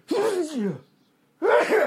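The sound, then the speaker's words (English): A person sneezes: a loud voiced gasp that falls in pitch, a short silence, then a sharp, forceful second burst. “I'm going to sneeze.”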